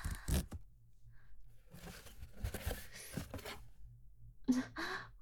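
A package is torn open in faint bursts of tearing and crinkling paper, separated by short quiet pauses.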